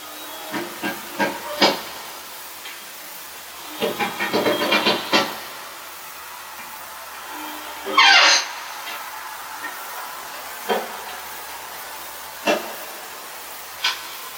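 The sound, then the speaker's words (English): A single brief metal-on-metal squeak, likened to elevator cables grinding on drums, cuts through an empty building. It rises over a faint hiss among scattered soft knocks and clicks. “And you hear this huge squeak like somebody metal on metal or something”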